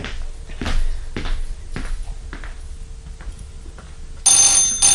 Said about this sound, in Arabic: شوف التليفون لغاية ما ادخل اوضتي وارجع.